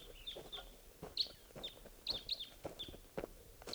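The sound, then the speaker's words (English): Many short, high chirps from a flock of birds calling at dawn in a hunting setting with decoys, coming in a quick, irregular scatter and fairly faint overall. “Sounds like a flock.”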